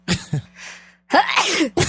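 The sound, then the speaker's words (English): A person sneezing with a rapid, staccato attack like a machine gun: two sharp explosive bursts, a breathy intake, then a longer forceful burst and a final short one, loud and alone. “But I really like the attack. It's like a Tommy gun sneeze.”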